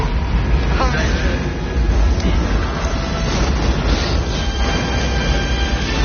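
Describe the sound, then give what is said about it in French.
A rocket launch ignition from a space film: a long, loud, continuous deep roar and rumble that holds steady for several seconds. “Une très longue mise à feu, effectivement. Le moment du lancement, rien de plus efficace.”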